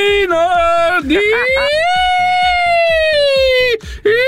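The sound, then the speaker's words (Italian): A human voice imitating a fire engine siren, a loud sustained wail that climbs, holds high for a long stretch, then drops, breaks off briefly and resumes. “questi sono i pompieri, questi.”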